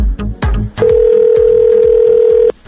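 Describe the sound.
Ringback tone on an outgoing telephone call. A few short clicks and bumps come first, then a single steady mid-pitched tone holds for almost two seconds and cuts off abruptly.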